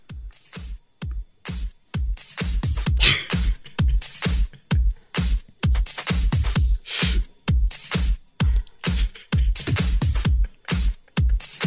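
Rock music plays during a music quiz, driven by punchy, regular staccato hits with heavy low drums and bright cymbal bursts that pulse steadily throughout.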